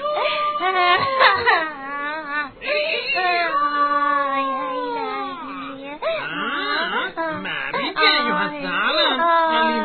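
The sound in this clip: Crying and whimpering from a voice, with drawn-out wavering wails that rise and fall in pitch, broken by sobbing catches, loud and nearly continuous throughout.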